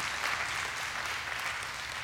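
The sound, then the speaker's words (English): A church audience applauding fathers as they take their seats during a service, a thick, continuous wash of many hands clapping at a steady level from start to finish. “Can y'all give fathers applause one more time as they take their seat?”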